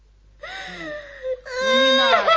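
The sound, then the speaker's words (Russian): A small child cries alone in wavering, whimpering wails that break off briefly and then swell into a louder, sustained sob. “Ну, не надо. Ну, не плачь, малыш.”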